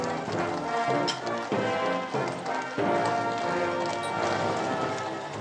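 Horses' hooves clop in a carriage procession with the Sovereign's escort, a steady clatter of many hoofbeats under a broad, continuous wash of sound with occasional sharper strikes.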